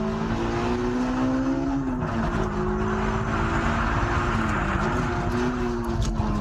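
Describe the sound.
A car's engine drones steadily and loudly on a track as the rear slides, holding a sustained note with slight wavering in pitch throughout.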